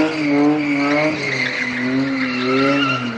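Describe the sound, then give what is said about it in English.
Fishtailing Toyota cars burn tire rubber on a cement lot in Benghazi, making a continuous loud screech of squealing tires that wavers in pitch over a steady engine drone. “In the late afternoon, young men gather to see just how much tire rubber they can burn. Fishtailing Toyotas leave a smear of swirling and smoking sticky blackness on the pavement.”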